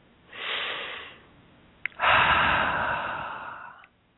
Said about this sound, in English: two more nice deep breaths here.